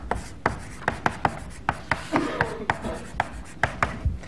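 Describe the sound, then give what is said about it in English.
Chalk writes on a lecture blackboard: a quick, uneven series of many sharp taps and short scratchy strokes, with no voices. “Supposing we write down the functional version, functional meaning in the old style, okay, of factorial by an iterative process.”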